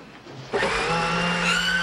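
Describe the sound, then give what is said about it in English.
A kitchen blender switches on after a low hum and runs with a loud, steady whirring whine until the end. “Hey! The blender!”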